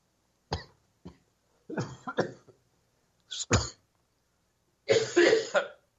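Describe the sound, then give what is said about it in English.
A person coughing after something went down the wrong way: harsh, throaty coughs in several bursts and clusters separated by short pauses, ending in a longer spluttering bout. “Excuse me. Oh, my goodness. That went down the wrong way.”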